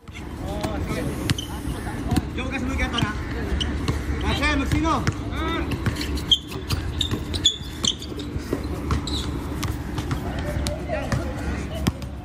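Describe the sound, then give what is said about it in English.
A pickup basketball game played by Filipino expats in Dubai: many ball bounces and thuds on the court, with shuffling footsteps and a steady background of voices. “That's a basketball game. What is significant about that recording, Stuart? So this recording is a group of Filipino expats playing basketball in Dubai.”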